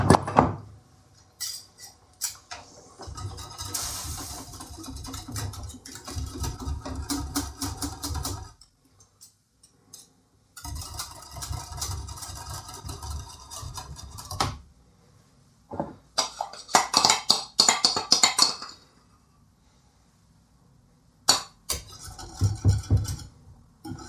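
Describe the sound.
A whisk beats apple wine in a pot while making apple wine soup. It gives busy, rattling metallic clinks and scrapes in long bursts, separated by short pauses.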